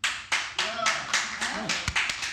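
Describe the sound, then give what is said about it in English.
Audience applause at a live show, given as a vote by show of hands: a few rolling waves of clapping mixed with whoops and cheering voices. “By show of applause, who thinks your inner child is an idiot?”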